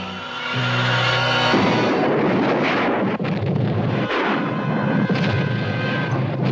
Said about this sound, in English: Storage tank of the Japan Oil Company has exploded.